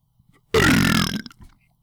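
A single loud, deep burp lasts under a second and stands alone in near silence.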